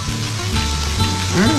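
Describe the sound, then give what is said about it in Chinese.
Mushrooms, vegetables and duck gizzard sizzle as they fry in duck fat left from frying duck meat, giving a brief, steady, fairly loud crackling hiss. “最后用煎过鸭肉的油煎香菇、蔬菜和鸭胗。”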